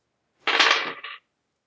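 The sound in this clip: Dice rolled during a tabletop role-playing game: a single brief clattering rattle of several dice lasting under a second, loud and alone against silence.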